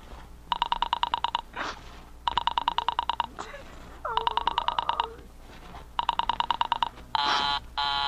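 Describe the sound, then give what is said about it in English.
Telephone signal tones as an operator places a call: four bursts of rapid, evenly pulsed tones separated by short gaps, followed by a steadier, different tone at the end. “Operator, for heaven's sake, will you ring that Murray Hill 40098 number again?”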